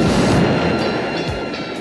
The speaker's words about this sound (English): The purple title, Casual Sex, explodes.